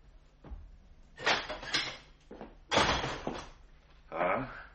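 A door being opened to let in a visitor, in a radio drama. Several faint thuds and rattling, scraping bursts follow one another.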